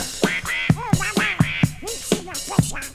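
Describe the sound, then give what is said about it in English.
A cartoon duck voice quacks within a disco song, giving a rapid, uneven run of nasal, garbled squawks that rise and fall in pitch. “Donald Duck. He's got Donald. It's a good cameo. That's good. Donald Duck's in there.”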